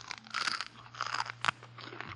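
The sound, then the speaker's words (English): Crunchy celery is bitten and chewed, giving a run of faint, crisp crunches in quick, uneven bursts, with one sharper snap near the middle. “Say, take a bite of this. What? Celery. Mm. Not bad at all. Sure. And it makes a noise, too.”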